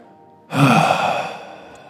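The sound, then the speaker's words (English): A long breathy exhalation in a guided breathing exercise, a soft sigh-like rush of air that starts abruptly and fades gradually over more than a second. “you could also play with having a nice long exhalation. We can do it right now. Take a deep breath in.”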